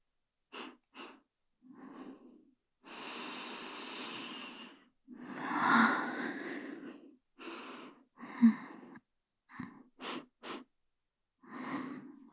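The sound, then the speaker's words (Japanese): Quiet deep breathing: two long, slow breaths stand out among several shorter sniffs and airy huffs, spaced unevenly with pauses between and no talk. “深呼吸だよ、先生。”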